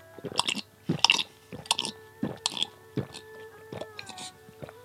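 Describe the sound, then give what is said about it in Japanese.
Wet chewing and slurping of hot soup dumpling (xiaolongbao) juice: many irregular moist mouth bursts, some crisp and loud. A steady tonal hum runs underneath. “熱々の肉汁と芳醇なスープがもう口の中でも広がって、こう肉汁の飲む音聞けますかね。”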